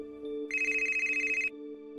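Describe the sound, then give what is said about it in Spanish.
An electronic telephone rings in a single trilling burst of about one second, made of rapid pulses. A steady low humming tone sounds underneath before and after it. “Al poco tiempo, una llamada a Julio cambió su vida.”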